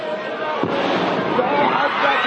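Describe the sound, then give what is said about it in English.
An explosion blast at a cemetery arrives as a single dull, low thump early on, set against a constant wash of crowd noise and voices that continues unchanged afterward. “The two blasts, one of which can be heard in this video, took place minutes apart.”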